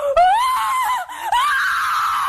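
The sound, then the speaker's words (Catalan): A woman lets out a building scream rather than a bloodcurdling one: a long, high, sustained cry that wavers, dips briefly, then rises again and stays loud throughout. “Anem a escoltar uns crits.”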